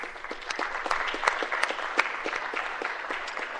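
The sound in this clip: Applause from the floor of a state Senate chamber welcoming guests of two senators, a steady, dense patter of many hands clapping that continues without a break, with a few sharper claps standing out.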